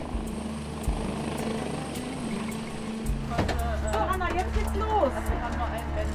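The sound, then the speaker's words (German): The ADAC rescue helicopter Christoph 26 lands at Wangerooge airfield with a steady drone of engine and rotor and a low, throbbing hum. People talk over the noise in the second half. “Der Rettungshubschrauber landet auf dem Wangerooger Flugplatz. Christoph 26 gehört zur ADAC Luftrettung und ist in Sanderbusch bei Wilhelmshaven stationiert.”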